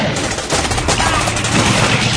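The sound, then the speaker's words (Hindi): Loud, dense gunfire aimed under a tank in a radio drama war scene, a continuous rattle of rapid shots with no pause across the whole stretch. “Tank के नीचे fire करो जी जरूर वहाँ कोई है जो tank को आगे बढ़ने में मदद कर रहा है”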